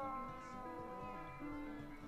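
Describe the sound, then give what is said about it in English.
Cats meowing are mixed into a song remix, a quiet, steady bed of sustained harmonic tones with a higher, drawn-out meow-like note rising above it partway through. “Backed up by two cats meowing and one hissing.”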